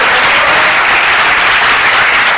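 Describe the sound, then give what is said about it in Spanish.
Audience applause at an evening church service: dense, steady clapping from many hands fills the whole stretch without a break, loud and even, with no voices heard. “aplauso a nuestro Dios esta noche”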